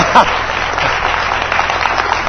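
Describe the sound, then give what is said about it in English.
Applause from an audience for a participant during a church service, a steady wash of clapping that holds at an even loudness through the short stretch. “Give him a great big hand clap for participating.”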